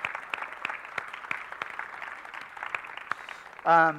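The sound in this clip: An audience claps for children arriving at a baptism service: scattered sharp claps over a soft background rustle, and a voice briefly cuts in near the end.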